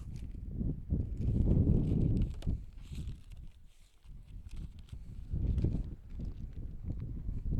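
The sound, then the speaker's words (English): Wind gusts across an outdoor baseball game, a low, uneven buffeting rumble that swells, eases briefly and builds again over several seconds, with no talk. “As that wind is just gusting from behind.”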